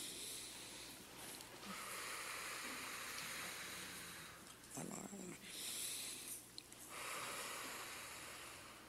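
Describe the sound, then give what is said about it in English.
A church audience breathing deeply together, a soft, airy hush of many breaths that swells gently and then settles, faint and breathy over a low background murmur. “And to get started, let's take two nice deep breaths.”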